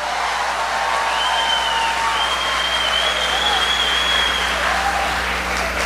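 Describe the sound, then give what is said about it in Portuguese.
A church audience applauds during a service with dense, steady clapping that holds at the same loudness throughout, while voices call out over it. “Pode aplaudir, pode aplaudir, pode aplaudir. Aplaude de verdade, aplaude dando glória.”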